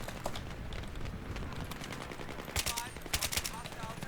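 Gunfire from a weapon in a video game: short, rapid automatic bursts of sharp cracks over constant game noise, growing louder and denser toward the end.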